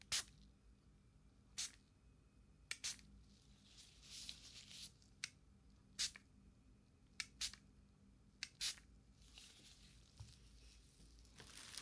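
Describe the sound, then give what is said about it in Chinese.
A dental cleaning spray hisses faintly in a few short bursts during a teeth cleaning. Sharp, quiet clicks recur throughout, and no one talks. “先用我们的药棉将洁牙喷雾上喷”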